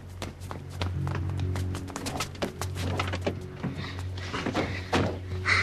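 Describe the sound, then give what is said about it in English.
Two people run across a parking lot toward a car. Many quick, hard footfalls patter unevenly over a low, steady hum, with some sharper knocks near the end. “Billy and Pete are running across the parking lot toward the car”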